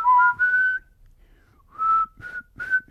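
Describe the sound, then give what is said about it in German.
A person whistles the intro melody of a song by a German rock band at a punch stand: clear, high whistled notes with gliding pitch, a short phrase, a pause, then several more notes. “Wo einer so pfeift am Anfang.”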